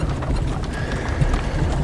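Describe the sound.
Hooves of a horse pulling a carriage clop steadily along, with a dense, continuous rumble underneath and no clear pauses.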